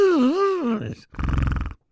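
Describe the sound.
A voice imitates snoring caused by a long, hanging part at the back of the throat: a drawn-out, wavering groan, then a short pause and a rough, buzzing snort.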